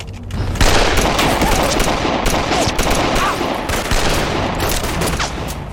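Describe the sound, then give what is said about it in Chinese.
Gunfire from soldiers shooting erupts after a short moment of quiet: a loud, continuous burst of many rapid, overlapping shots that keeps a dense, crackling rhythm to the end. “哪来的刁民，开枪！”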